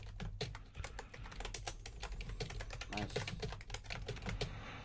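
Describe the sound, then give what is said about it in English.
Rapid typing on a computer keyboard, with many crisp key clicks in a quick, uneven stream that continues throughout. “I'll type it out. Oh shit! If I type it out, I click in the right place.”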